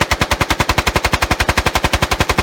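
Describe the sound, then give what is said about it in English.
A rifle fitted with a bump stock fires a long, rapid burst of many sharp gunshots. The shots come in an even, machine-gun-like rhythm, loud and steady from start to end. “And you can see how much fun it is on YouTube. Here is a typical bump stock demonstration video.”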